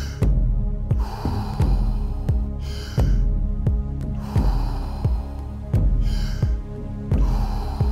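Deep circular breathing during a guided breathwork exercise, with long, loud breaths flowing in and out without pause in slow cycles over a steady pulsing beat.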